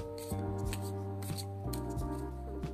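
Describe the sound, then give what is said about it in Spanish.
A deck of oracle cards being shuffled by hand, with repeated soft riffling and sliding strokes in an irregular rhythm over a steady low hum. “entonces estoy revolviendo para sacar dos cartas”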